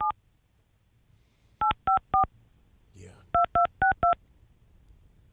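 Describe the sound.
Clear touch-tone telephone dialing as a number is entered: eight crisp, evenly pitched beeps, one alone, then a quick group of three and a quick group of four, with a soft rustle between the groups.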